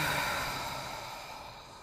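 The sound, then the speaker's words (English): A soft, breathy exhale through the mouth during a relaxation breathing exercise. It is a single airy rush that starts at its strongest and slowly fades, quiet and alone. “Let's take another inhale through our nose. Exhale through our mouth.”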